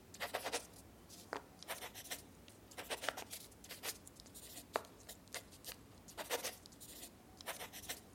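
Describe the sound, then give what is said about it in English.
A pen writing by hand on paper in an office: faint, scratchy strokes come in many short, irregular bursts, each a brief dry rasp, with small pauses between clusters throughout. “No more words. I'll put it in writing.”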